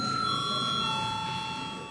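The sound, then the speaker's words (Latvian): Parliamentary voting bell ringing before a vote, a loud, continuous electric tone with several steady pitched overtones that holds throughout and tapers only slightly at the end. “Deputāti vēlas balsot. Lūdzu zvanu.”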